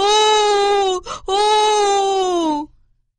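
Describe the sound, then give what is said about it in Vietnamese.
A voiced wail for a fox, loud and tonal, in two long drawn-out cries split by a short sobbing break, the second trailing off with a falling pitch. “Tôi không biết đâu, bà phải đền cho tôi con gà, nếu không tôi sẽ khóc lóc như vậy suốt cả ngày cho bà coi.”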